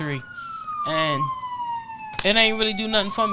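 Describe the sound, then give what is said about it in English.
A police siren wails with a clearly falling pitch, then rises and sweeps again. A voice talks over it throughout. “Look, that's the sound of the police.”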